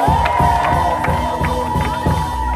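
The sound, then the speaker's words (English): A church audience cheers, whoops and claps in praise during a service, loud and continuous. A steady held tone runs underneath, and regular rhythmic hits recur through the din. “Can you give Jesus a great hand praise?”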